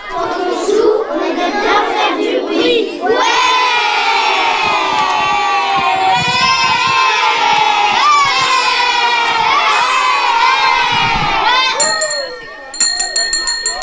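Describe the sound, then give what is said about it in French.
Children shout, shriek and chatter while playing in a schoolyard at recess. The crowd noise is loud, dense and continuous, with many overlapping high voices throughout. “Ensuite, c'est à nouveau la récréation. On va se défouler dans la cour. On peut faire du bruit.”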